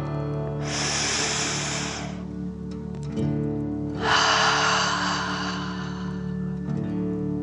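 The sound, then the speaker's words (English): A deep, slow breath in and out during a guided relaxation exercise: two long, soft, airy breath sounds separated by a pause over quiet, sustained music. “Feel its warmth and take a deep dragon breath in and out.”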